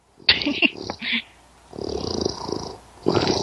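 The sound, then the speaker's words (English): A house cat purring, with a few rough, low pulsing bursts of moderate loudness separated by short pauses. “Why does he purr?”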